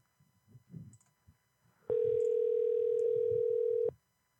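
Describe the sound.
A steady telephone tone sounds while a number is being called: one unbroken mid-pitched tone that holds for about two seconds, then cuts off sharply. Faint, low murmuring comes before it.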